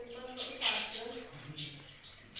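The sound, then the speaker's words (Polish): A parrot talks in a few short, squeaky, speech-like bursts, quiet and high-pitched, with brief pauses between phrases. “Jaka ta papuga jest epicka. No mów coś jeszcze.”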